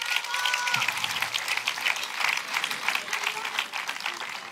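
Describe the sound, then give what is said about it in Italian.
Audience applause for a trumpeter and a guitarist at a live band gig. Sustained, dense clapping carries on at an even level, with a few brief tonal sounds early on. “Un applauso per Daniele Raimondi alla tromba, alla chitarra Marco Bottoni.”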